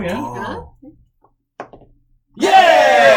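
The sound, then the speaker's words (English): A neck-snap crack in a video game: one short, dull crack after a pause in the talk, with people talking before it and loudly again just after. “Yeah, you grab his neck and you... Yeah, there's like a satisfying crack. Yep. And he drops.”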